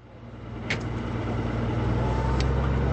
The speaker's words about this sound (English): Bradley fighting vehicles and armored transports start up.